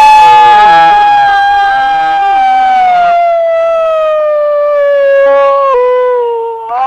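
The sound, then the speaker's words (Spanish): A person imitates a wolf with one long, loud, sustained howl whose pitch sags slowly downward, breaking and wavering briefly near the end; faint voices murmur beneath the opening seconds. “A ver, escuchemos el aullido.”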